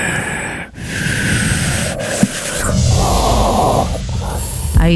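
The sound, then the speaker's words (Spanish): A voice imitates the mechanical, rasping breathing of a masked film villain: drawn-out, hissing breaths with a brief break between them, steady in loudness and without any words. “¿Cómo respira Darth Vader?”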